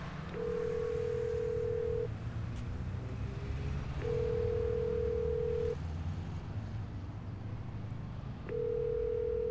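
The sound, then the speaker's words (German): Steady mid-pitched telephone ringing tones sound on the line after a number is dialled. There are three long tones separated by pauses, the last cut short, over a constant low rumbling background. “Du hast doch Telefon. Ruf sie an, frag sie. Okay. Jetzt gleich.”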